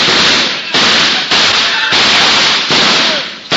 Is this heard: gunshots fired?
yes